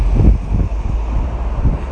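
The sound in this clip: Strong wind blows outdoors at a street roundabout and buffets the microphone with deep, uneven gusts of low rumble. It stays loud throughout and no one speaks.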